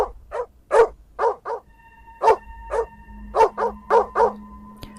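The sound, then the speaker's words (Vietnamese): Furious barking from a black dog chained near a gate, many sharp barks in quick, uneven bursts, with a steady humming tone joining partway through and running beneath them. “con chó mực xích ở gần cổng cũng đã bắt đầu hướng về phía thân hình mặc đồ trắng đó, điên cuồng mà cất lên tiếng sủa.”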